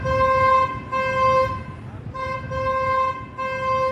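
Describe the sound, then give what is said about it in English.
Car horns blare in street traffic on New Street: a series of long, steady honks with a rich, bright tone, separated by brief gaps, over a constant low rumble of road noise. “These are the sounds of traffic on New Street.”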